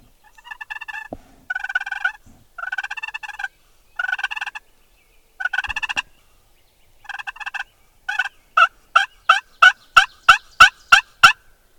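A wild turkey gobbles in answer to a hunter's yelp and purr calls: a handful of rattling, rapid-fire bursts, then a quick run of sharp, evenly spaced high calls that grow louder.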